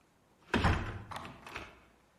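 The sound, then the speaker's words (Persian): A door being closed with one dull, solid thud, followed by two softer clunks as it settles, then quiet. “درو ببند.”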